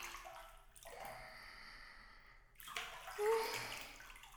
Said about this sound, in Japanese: 朝から入る温泉は本当に格別ですね。お湯が体に染み込んできて、